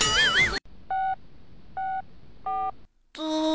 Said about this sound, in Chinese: 我可不是威胁你哦，我要拨打幺幺零了哟。